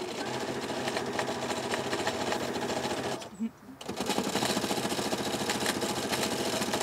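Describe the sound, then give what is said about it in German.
Sewing machine stitching a fabric bunting garland, a steady mechanical whir with rapid needle vibration that runs continuously, breaks off briefly midway, then resumes at the same level. “Ich nähe jetzt hier gerade eine Wimpelkette. Das ist so eine kleine Passion von mir geworden.”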